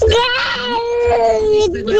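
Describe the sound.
A young child cries during a tantrum, a loud, continuous, strained wail held at a fairly steady pitch for about two seconds, with whimpering breaks in the sound.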